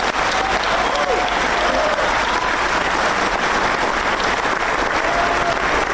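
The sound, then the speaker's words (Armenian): Long, unbroken audience applause at the end of a film screening, honoring director Artavazd Peleshyan. Loud, dense clapping holds steady from start to finish. “Ֆիլմի ավարտին հանդիսատեսն անընդմեջ մեջ երկար ծափահարություններով կրկին ողջունեց մեծանուն կինոռեժիսորին Արտավազդ Փելեշյանին։”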